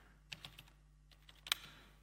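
Keys are tapped on a computer keyboard while a database query is typed, a few faint, sparse clicks in irregular bursts with a sharper cluster near the end.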